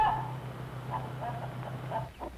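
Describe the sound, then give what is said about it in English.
Soft clucking from a farm hen with her baby chicks: a few faint, short clucks spaced irregularly over a steady low hum. “Some farmers let a hen sit on eggs until they hatch into chicks. Mother hen keeps her baby chicks warm.”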